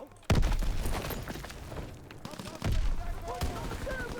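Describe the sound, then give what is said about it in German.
Sniper rifle shots in a video game: a few loud, sharp cracks, each with a booming low tail, set against a dense, noisy game soundscape. “What? What? Was war das denn? Ah, Sniper.”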